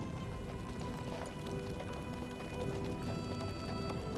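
Horse hooves clip-clopping as a horse-drawn chariot sets off, a steady, faint run of hoofbeats within a dense, noisy background.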